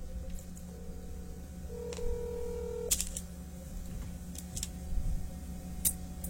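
Telephone dialing tones sound faintly over a low hum as a call is placed: a few steady beeps at differing pitches in sequence, followed by scattered sharp clicks.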